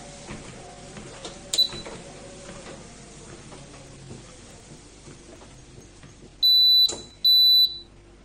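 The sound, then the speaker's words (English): A treadmill beeping as it does every minute during a walk: two loud, high, steady electronic beeps in quick succession near the end, following a stretch of faint low rumble and small clicks. “that beeping sound you just heard, that's my treadmill just beeping every minute as I'm walking.”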